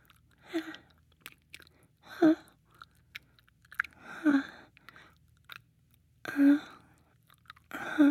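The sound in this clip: Mouth chewing a taste of food: wet, slightly crunchy bursts of mastication come in about five separate bouts, with short quiet pauses between them.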